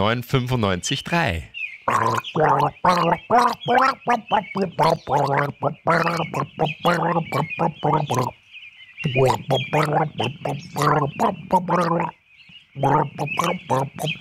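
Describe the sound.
A person gargles a song, producing rhythmic, loud, bubbly voiced syllables that follow a melody, with a couple of brief pauses.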